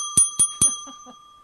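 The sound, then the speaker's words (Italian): A doorbell rung three times in quick, even succession, each a bright metallic ding with a ringing tail that fades away after the last strike. “Vanno, suonano e aprite. Aprite. Ah, c'è un altro campanello là.”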